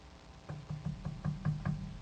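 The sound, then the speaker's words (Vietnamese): Soft knocking on a wooden door: seven light, evenly spaced raps over a low steady hiss. “nàng đành đánh bạo để gõ khẽ vào cái cánh cửa.”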